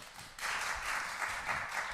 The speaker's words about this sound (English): Would you please put your hands together and welcome our speaker for tonight, Dr. Lionel Windsor.